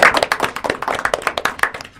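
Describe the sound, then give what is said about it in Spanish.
Applause from a crowd thanking helpers at an event: many quick, sharp hand claps overlap in a dense, irregular patter that holds steady throughout, with no speech over it. “Aplauso grande a las chicas que estuvieron operando.”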